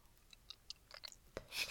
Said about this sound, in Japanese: 食べてる。